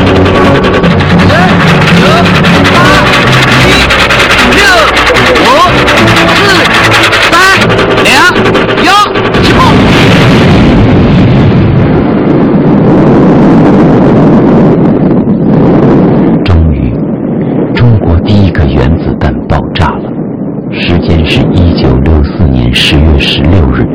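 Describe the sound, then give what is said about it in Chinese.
A huge explosion heard as a deep, loud, sustained roar with wind-like buffeting noise. The rumble thins after a while into scattered crackles and bursts. “刚才爆炸的同时”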